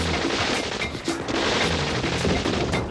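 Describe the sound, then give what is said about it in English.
Rapid machine gun fire from a drive-by shooting: a dense, loud, continuous barrage of overlapping shots with no pause. “It sounds like machine guns.”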